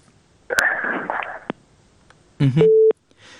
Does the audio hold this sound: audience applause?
no